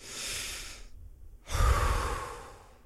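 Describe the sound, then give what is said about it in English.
Deep breathing through the nose: two breathy rushes of air separated by a short silent pause, the second louder and fuller than the first. No one speaks. “I can breathe.”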